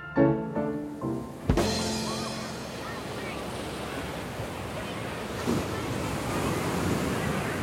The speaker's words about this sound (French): Face au vagues, dans les dunes, c'est justement là que la famille se trouve